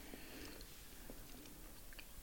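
Soft chewing of food, heard faintly as a few moist clicks and crunches with no talk.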